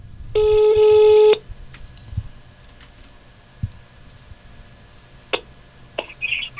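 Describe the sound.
Telephone ringback for an outgoing call: one steady electronic ring tone lasting about a second, followed by near-quiet line noise with a few faint clicks.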